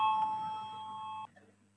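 An electric bell rings in a parliament chamber to call members to vote. It gives one steady, bright ringing tone for just over a second, then cuts off abruptly, leaving a faint low hum.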